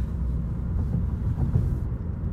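Steady, low engine and road rumble from a car being driven, holding an even loudness throughout with no talk.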